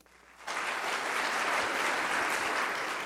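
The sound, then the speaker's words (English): Audience applause breaks out after a brief quiet moment and continues as a loud, steady, dense wash of clapping. “And now, another round of applause for sure.”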